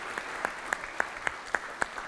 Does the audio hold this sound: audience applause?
yes